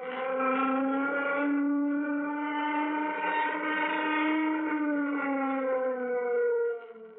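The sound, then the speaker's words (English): A warning siren sounds aboard a spacecraft before takeoff: a steady, buzzy tone with rich harmonics and a slight waver. It holds for about seven seconds, then cuts off abruptly. “Sound warning signal. Sound warning signal.”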